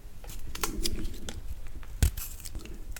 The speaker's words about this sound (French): on va prendre du gingembre et plus ou moins 100 g de gingembre qu'on va aussi éplucher et couper en gros morceaux